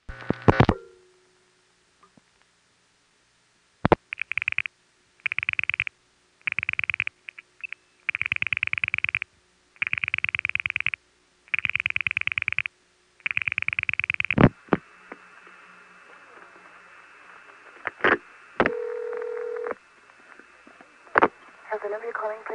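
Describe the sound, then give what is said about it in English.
Hempstead telephone trunk dialing into the Schenectady step tandem, through a crossbar 5 office: a sharp click, a long pause, then a run of regular buzzing tone bursts, followed by quieter line noise, scattered clicks and a short steady tone. “As you hear Hempstead dial the 3rd digit, you'll notice there's a little pause while Schenectady flashes a 2nd time, and that's because we hit a crossbar 5 office.”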